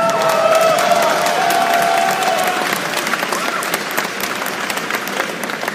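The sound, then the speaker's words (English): Audience applause and cheering for the Phoenix Clan at a live event, loud and dense at first, then slowly thinning and tapering off. “All right, Rogugan, one more time, let's hear it for the Phoenix Clan.”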